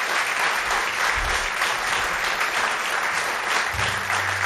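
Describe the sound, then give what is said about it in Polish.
Warm, sustained applause from a concert audience greeting a saxophonist onstage, a continuous dense patter of clapping that holds an even loudness throughout. “Proszę o jeszcze gorętsze oklaski.”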